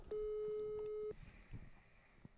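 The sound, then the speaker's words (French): A telephone sounds a single steady, mid-pitched electronic tone lasting about a second, then cuts off, leaving faint, low background noise. “Téléphone sonne.”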